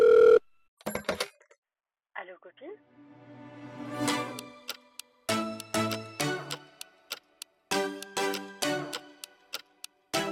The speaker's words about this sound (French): Sur ce, jingle.